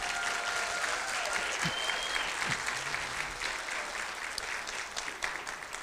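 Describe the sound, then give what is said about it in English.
A church audience applauds to welcome those joining online: dense, steady clapping that holds at an even, fairly loud level for about six seconds with no break. “So I want you in the house, would you put your hands together and welcome everybody that is with us online.”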